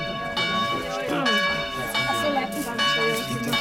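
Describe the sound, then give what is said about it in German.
A church-type bell rung by pulling a cord, loud and harsh, strikes a few times. Its sustained metallic ringing overlaps from one stroke to the next. “Er hat seine Hand schon an dem Seil. Da ertönt die Glocke, weil, ehe die Köchin sich's versieht, fest er an der Kordel zieht.”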